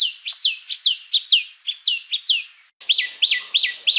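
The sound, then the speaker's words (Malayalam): Common tailorbird calls ring out alone as a rapid run of loud, high, sharply repeated chirps. A brief pause follows, then another run of the same insistent notes. “ചുറ്റുപാടുകളിൽ അല്പമെങ്കിലും ശ്രദ്ധ വെക്കുന്ന ഒരു മലയാളി തീർച്ചയായും തുന്നാരൻ്റെ ശബ്ദം കേട്ടിരിക്കും. തുന്നാരൻ്റെ ഒന്നോ രണ്ടോ ശബ്ദങ്ങൾ അഥവാ കോളുകൾ നമുക്കൊന്ന് ശ്രദ്ധിക്കാം.”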